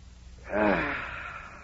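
A man doing early-morning setting-up exercises, hands on hips, takes one deep inhale: a breathy rush that swells in quickly and then slowly fades over about a second.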